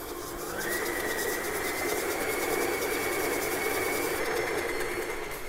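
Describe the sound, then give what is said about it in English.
An electric stand mixer with a paddle attachment beats batter until fluffy, giving a steady, continuous motor whir with a brighter tone that settles in just after the start and holds evenly throughout, with no talk. “I'm gonna beat this up in the mixer until it's fluffy. So this will take probably, I would say, around 2 minutes.”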